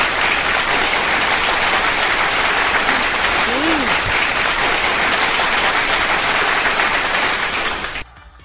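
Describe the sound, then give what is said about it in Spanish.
Loud, continuous applause from the audience of a live anime-themed show, a thick wash of clapping that holds steady for about eight seconds and then cuts off abruptly. “Pero un aplauso.”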